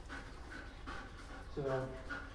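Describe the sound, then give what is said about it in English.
A dog pants hard while playing excitedly with a ball: rapid, breathy puffs in a steady rhythm, with a brief higher whine near the end and a voice alongside. “Good dog. Yeah, we've got a great dog here, a great handler”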